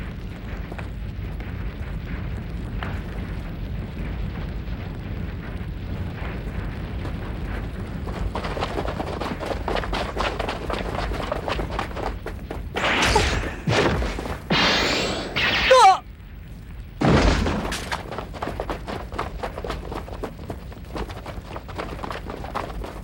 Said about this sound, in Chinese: 有枪声， 这里。